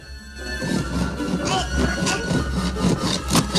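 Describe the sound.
A knife blade saws through the wooden panels of a crib, making a series of rough, rasping strokes in an uneven back-and-forth rhythm. The strokes are fairly loud throughout.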